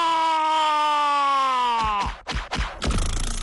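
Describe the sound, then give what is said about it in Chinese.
A man shouts with all his strength, one long, loud, sustained vowel held for about two seconds with its pitch sagging slightly before it breaks off, followed by a few sharp thumps. “我就使出全身的力气大喊了一声啊”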